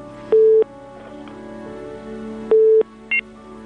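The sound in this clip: Telephone signal tones after a caller's line failed: two short, steady mid-pitched beeps spaced about two seconds apart, then a brief higher tone, over a faint steady hum.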